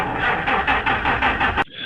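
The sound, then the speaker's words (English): A car engine cranking but failing to start: a rhythmic, pulsing mechanical churn repeats steadily, then cuts off abruptly near the end, with no voices. “I hear a vehicle trying to rev, but I don't know what that is. I need more information. Like, I don't know what type of vehicle this is. I hear is someone trying to turn it on, and it's not working.”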